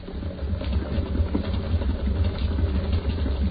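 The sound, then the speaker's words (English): A purpose-built pump runs with a steady, low mechanical hum and a busy, churning texture that holds evenly throughout. “No, pump it. I built this pump especially for it. There's the pump switch, Ed. Here? Yeah. Turn it on.”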